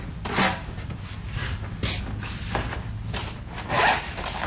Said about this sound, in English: The sounds of a local artist drawing a charcoal portrait from life at Saw Studios in Carbondale.